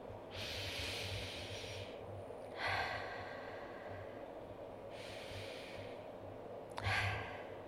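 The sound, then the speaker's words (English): Deep, slow breaths taken during a guided relaxation exercise, a few soft, airy rushes of air in long, unhurried cycles, faint and with no talk. “Let's take some deep, slow breaths.”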